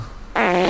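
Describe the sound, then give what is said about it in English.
A fart noise sound effect from a machine with buttons gives one short, loud, buzzy blat that starts abruptly and holds a rough tone for under half a second. “I've just got this machine with buttons, and I can type in the word fart, and it just comes up with loads of fart noises.”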